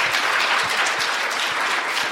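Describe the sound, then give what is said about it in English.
Audience applause at a church gathering: dense, steady clapping fills the whole clip at an even level, with no voices over it. “Let's give him a hand of applause here.”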